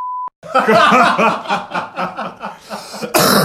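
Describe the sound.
A short, steady, mid-pitched censor beep opens, followed by voices laughing and talking.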